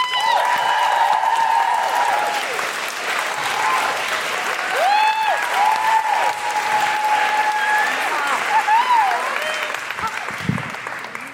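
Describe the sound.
Sustained audience applause welcomes a comedy writer and abortion-law campaigner onto the stage. Dense, steady clapping holds at full strength for about eleven seconds and eases slightly at the very end.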